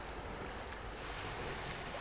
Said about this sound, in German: Du beobachtest, wie die Wellen sich an den Klippen brechen